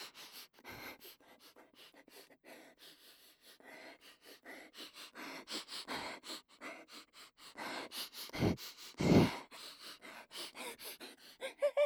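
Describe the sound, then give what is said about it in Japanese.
Repeated sniffing, many quick breathy inhales and short gasps following one another in an uneven rhythm, performed by a voice, with a few stronger sniffs toward the end. “匂い嗅ぐだけですから、匂い嗅ぐだけですから”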